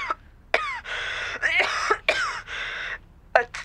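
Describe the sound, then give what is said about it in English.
Harsh, terrible coughing from a sick person with a sore throat and high temperature: a long fit of many loud hacking bursts in quick succession, some stretched into rasping, drawn-out exhalations, with two short coughs at the end. “a terrible cough”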